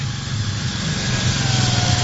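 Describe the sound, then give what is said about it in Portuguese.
A tractor engine passes during a village wine festival, its low, steady chugging putter throbbing in a fast, even rhythm and growing slightly louder over two seconds. “Aqui vem um trator”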